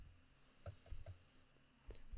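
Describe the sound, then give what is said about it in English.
Computer mouse clicks while clicking through a web page to grab a link, a few soft, faint clicks spaced irregularly over a low background hum. “So let me just, I'm going to click through here just to grab this link.”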